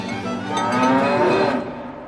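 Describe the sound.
A farm cow moos once, a long, loud and low call that swells in the middle and then fades, with no one talking.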